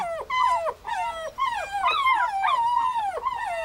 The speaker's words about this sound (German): Hundewelpen begrüßen ihren großen Bruder, der sich nur langsam an das neue Leben unter seinesgleichen gewöhnt.